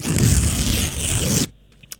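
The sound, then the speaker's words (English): A paper envelope is ripped open in one loud, rough tearing sweep lasting about a second and a half. It stops abruptly, followed by a faint click. “Okay, all right, so I'm going to rip over the envelope and then we'll see what's in the prize, okay?”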